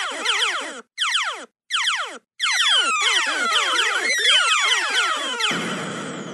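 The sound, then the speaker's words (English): Retro arcade sound effects from the video game Galaga: loud, rapid descending electronic sweeps in short bursts, then a continuous cascade of overlapping falling tones that ends in a noisy buzz. “So I went and I listened to Galaga and I downloaded some sound effects from there that were as close to what she was saying here. So listen to this.”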